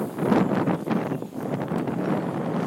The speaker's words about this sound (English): Hope that my tripod doesn't blow over in all this crazy wind.